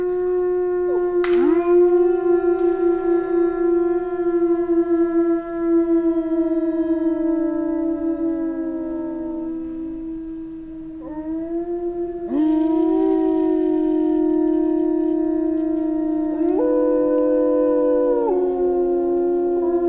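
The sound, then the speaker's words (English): A small pack of wolves howling in winter: long, sustained, overlapping tonal howls that hold steady and then slide in pitch, with fresh voices joining partway through. The howling stays loud and continuous throughout. “Wolves howling, small pack, frost snapping, because it was winter.”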